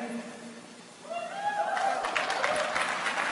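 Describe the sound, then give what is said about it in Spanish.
Applause from an audience at a motivational talk on positive affirmations, rising from near quiet after about a second and swelling into a fairly soft, dense clatter of many hands that continues to the end. “Si me van a aplaudir, apláudanme bien, por favor.”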